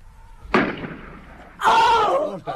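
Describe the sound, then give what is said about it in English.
A single sharp gunshot cracks out and decays quickly, followed about a second later by a loud, strained human shout. “God, she's been shot. Stop! You! Stop!”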